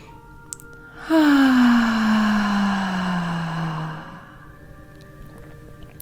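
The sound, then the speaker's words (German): A long voiced exhale in a relaxation breathing exercise: one sustained, steady vocal tone of about three seconds that sinks gently in pitch before fading out. “Und dann atmest du aus mit Stimme. Nochmal gerne einmal mit mir zusammen tief einatmen.”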